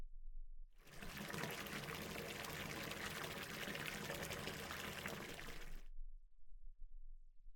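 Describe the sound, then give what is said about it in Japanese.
Hot water pours into a bathtub in a steady, rushing stream that runs for about five seconds and then stops, with no talking. “じゃあ、お湯張ってくるから、少し待っててくれ。”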